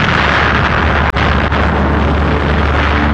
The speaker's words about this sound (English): the screaming sound of the dive bombers, the detonation of the bombs, this just terrified people.